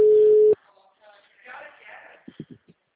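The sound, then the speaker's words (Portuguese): Ringback tone on an outgoing phone call: one steady, mid-pitched tone holding for about half a second, then cutting off into quieter, indistinct voice-like sounds. “Deu bom, tá ligando.”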